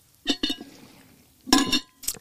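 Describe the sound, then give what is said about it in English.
Someone takes a sip of water from a glass tumbler: faint clinks and a brief liquid sound come in a few short bursts separated by near silence. “Speaking of, now time for a sip.”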